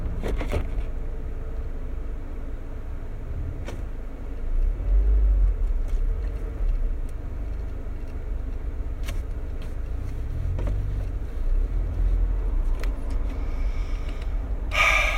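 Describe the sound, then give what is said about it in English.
Steady low rumble of a car being driven through heavy traffic, continuous engine and road noise throughout, broken by a few faint clicks and soft breathy sounds, with no talking. “So I'm stuck driving now, aren't I?”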